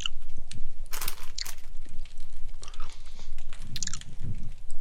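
Crunchy biting and chewing on a pumpkin pie flavored holiday snack during a taste test: a few sharp, loud crunches stand out over steady, wet chewing.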